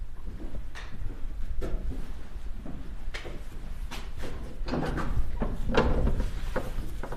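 Large, heavy door in the old cloister walk of a 13th-century monastery being opened: a continuous low scraping rumble with a few scattered knocks and brief creaks.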